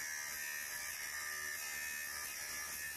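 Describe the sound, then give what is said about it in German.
A special machine cuts a ball bearing ring for a technical model, giving a steady, unbroken high-pitched whirring buzz that holds at an even loudness throughout with no pauses. “An einer speziellen Maschine schneidet sie den Ring zu.”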